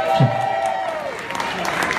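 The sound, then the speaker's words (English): Audience applause and cheering for Barry Shank at a live concert in Cleveland, Ohio: a brief burst of clapping under a sustained whoop and crowd voices. “Cue Barry applause.”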